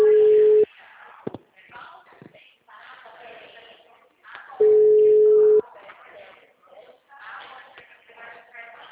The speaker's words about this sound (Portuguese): Tá chamando.